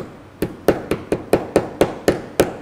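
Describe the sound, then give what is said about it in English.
A hammer gently taps a part into place through a protective jig set on top. Ten sharp, evenly spaced knocks each ring briefly, keeping a steady rhythm at a fairly even strength. “And then you'll want to just gently hammer evenly. Start a little light, then you can hammer a little harder.”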